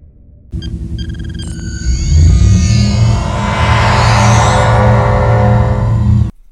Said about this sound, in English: So we get the old transporter sound.